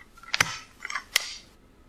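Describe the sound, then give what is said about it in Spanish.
Stapler clicks sharply a few times, a louder pair of snaps separated by softer clicks, heard alone and crisp. “¿Una engrapadora? ¿Una engrapadora? No, ¿verdad? No, pero... ¡Sí! ¡Sí!”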